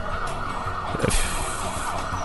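An ambulance siren wails steadily over a dense wash of road and traffic noise, loud and continuous throughout with no voices.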